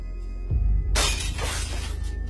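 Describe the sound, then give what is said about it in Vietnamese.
A drinking glass of water falls from a table and shatters: a dull low thump, then a bright crash of breaking glass with tinkling fragments trailing off. “tay chân khua khoắng, làm cho cốc nước ở trên bàn rơi xuống vỡ toang.”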